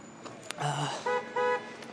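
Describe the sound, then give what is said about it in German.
Car horns honk in traffic as drivers urge a stopped car to move near a dead-end street. A few short horn toots sound, the last two clear, steady and fairly faint. “Und der versteht nicht, dass die hupen, weil der fahren soll.”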